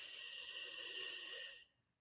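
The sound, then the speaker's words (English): A person takes one long, deep breath in during a guided relaxation exercise. It is a soft, steady airy hiss that holds evenly and then stops abruptly, followed by near silence. “putting your hands on your lap, I want you to take a nice deep breath in”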